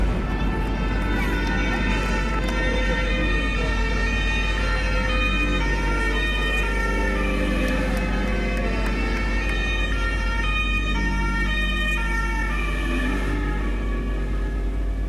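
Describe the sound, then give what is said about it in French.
Emergency vehicle sirens as gendarmes and rescue services race to a shooting on a forest road in the French Alps: loud, continuous wailing tones that overlap over a constant low engine rumble. “Il est 16h lorsque les gendarmes et les secours arrivent, toutes sirènes hurlantes sur le lieu du drame.”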